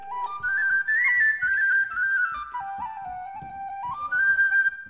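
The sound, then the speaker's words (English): A whistle plays a Celtic melody as a musical instrument, a clear, bright, sustained tune stepping between high and lower notes with steady loudness and no talk over it. “That's right, it's a whistle.”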